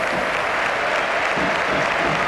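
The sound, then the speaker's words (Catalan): Stadium crowd ovation at a football match as fans applaud newly signed players coming on as substitutes: dense, steady applause and cheering that holds at an even level throughout, with no break. “Ovacions.”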